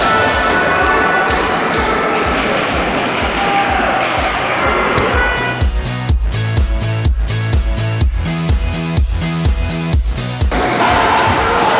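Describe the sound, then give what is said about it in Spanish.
A crowd roars at a wheelchair basketball game, a European Cup quarter-final, as a loud, dense, sustained wash of noise. Partway through, a steady rhythmic thumping beat takes over, then the roar returns briefly at the end. “Oigan rugir al público.”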